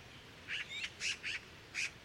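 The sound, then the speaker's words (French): Magpies trade soft calls: a few short, raspy, nasal chirps in an uneven series over a steady background hiss. “Notre première pie s'en rapproche et elles échangent des petits cris.”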